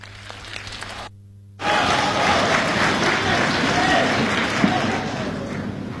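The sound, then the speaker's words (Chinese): Audience applause at a crosstalk comedy show in Beijing: dense clapping bursts in after a short quiet gap and then holds steady and full until the end. “感谢大家的掌声， 谢谢您的热情。 当然了，再热烈一点就更好了。”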